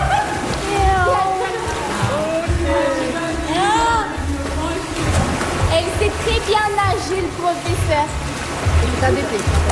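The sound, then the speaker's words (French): Water sloshes and splashes as people enter a swimming pool, a continuous churning wash heard under several voices talking throughout. “On peut entrer dans la piscine, ouais.”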